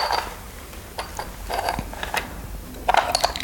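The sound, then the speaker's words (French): Light clicks and small rattles of a die being dropped and rolled, a few irregular knocks spread over several seconds, with a brief cluster of sharper ticks near the end. “J'aime bien le dé. Le dé, ça fait prophétie. Tu tires les dés. Je mets le dé sur mon ventre, pas sur mon nombril, parce que je n'aime pas toucher mon nombril.”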